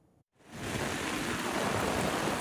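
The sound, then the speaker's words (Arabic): Heavy rain pours down on a fish market in Latakia during a storm, a dense, loud, steady hiss that swells in after a brief moment of quiet and then holds unbroken, with no talk. “الأمطار ما عم تهدى باللاذقية، ونحن هون بسوق السمك عم نعاني من قصة الصرف المطري.”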